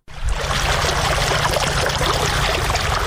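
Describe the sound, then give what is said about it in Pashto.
Water from deep wells pumped up by solar-powered machines for farmers in Sayed Abad district, Maidan Wardak province. It starts abruptly, then rushes and splashes in a loud, steady flow with no pause. “دا د میدان وردګو ولایت په سید آباد ولسوالۍ کې د ژورو څاګانو اوبه دي چې بزګران یې د لمریزې هندارو او ماشینونو په مرسته راپورته کوي.”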